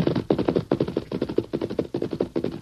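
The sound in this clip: Gunfire aimed at a man comes in rapid bursts, many sharp shots packed into quick clusters with brief gaps between, loud and alone without talk.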